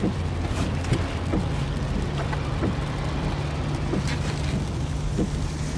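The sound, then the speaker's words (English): A car ride home sounds like a steady, droning hum of engine and road noise from inside the moving vehicle. It stays continuous at an even level, with faint scattered ticks and no talking. “This is the sound of your ride home with Dad after he caught you vaping.”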